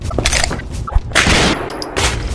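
Pistol shots fired in a dramatized struggle, heard as a few sharp, crackling bangs that burst out over a dense, busy background of other noise.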